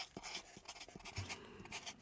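A pen writes on a sheet of paper, making a run of quick, faint, scratchy strokes in an irregular rhythm.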